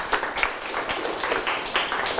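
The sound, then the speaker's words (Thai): Students clap their hands in a classroom to praise a group's answer. The clapping comes as a fairly loud, brisk patter with several stronger bursts, and it continues throughout. “ปรบมือครับ”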